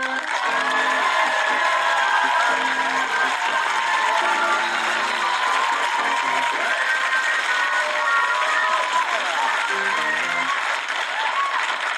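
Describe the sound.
Studio audience applause with cheering and whoops greets a church minister arriving as guest on a home-improvement TV show set. A dense, unbroken roar of clapping holds steady for the whole stretch.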